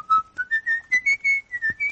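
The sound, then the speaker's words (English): A person whistles a song as a quick string of clear, bright notes that step up and down in pitch, each note short and evenly spaced, with no talking. “Whistle's fine.”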